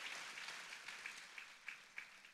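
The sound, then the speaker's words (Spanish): A church audience claps faintly, a soft wash of applause with a few sharper claps standing out as it continues for about two seconds. “Aplauso a ella”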